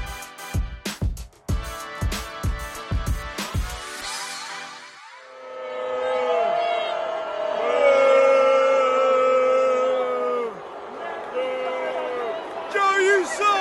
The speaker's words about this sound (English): Boos, that's right, boos from the stadium.